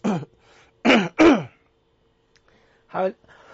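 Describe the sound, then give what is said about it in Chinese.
Throat clearing from a person with a lingering cough after travelling abroad: a few harsh, voiced rasping bursts separated by short pauses, standing alone. “不好意思，我出国咳到现在还没有好。”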